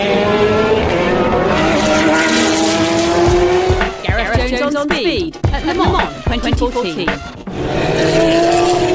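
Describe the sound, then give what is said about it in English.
Porsche race cars at the Le Mans 24 Hours roar loudly, engine pitch climbing steadily, then a mid-clip stretch of rapidly shifting, wavering engine tones with dips in level before the steady howl returns. “A little over 3 minutes remain of the Le Mans 24 hours. Porsche have just sent out one of their cars, so they're running at the end.”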